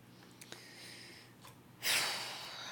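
A person takes one loud, audible breath that rises suddenly about two-thirds of the way in, after a quiet stretch, and holds steady to the end.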